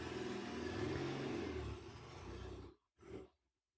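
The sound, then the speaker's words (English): A car driving away, its engine rumbling steadily before cutting out, followed by one short burst of engine noise that quickly fades. “Okay, he's driving away.”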